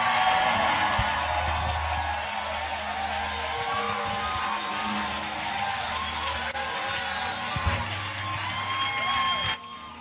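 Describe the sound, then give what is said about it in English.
A church audience screams and cheers as a reverend is welcomed. The sustained roar of voices carries scattered whoops over a low rumble. “help me welcome my father, the Reverend Eastwood Anaba. If you are not screaming, you are not doing well.”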